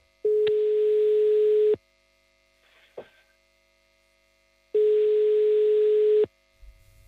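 Telephone tones while a call is being placed: two long, steady, buzzy beeps of identical pitch separated by a long silent gap, with a faint click between them.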